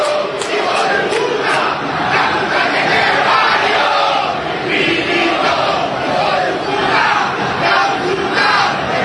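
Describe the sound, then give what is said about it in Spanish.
Angry home fans at an Argentine football match roar and shout together in protest against the club president. The noise is a dense, loud, continuous wall of crowd voices that swells slightly in waves throughout. “Escuchen el público de Racing.”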